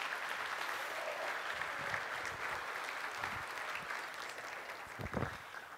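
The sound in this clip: A church audience applauds to welcome new members. The clapping is steady and sustained from start to finish, with a few sharper claps standing out near the end.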